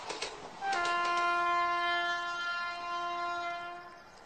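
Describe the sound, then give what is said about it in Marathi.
A train horn blares as a train approaches along a railway line: one loud, sustained, chord-like blast starts shortly after the opening and holds steady almost to the end, with no voices. “येते वाटते train.”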